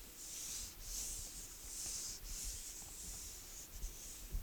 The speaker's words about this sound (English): Let's erase all this.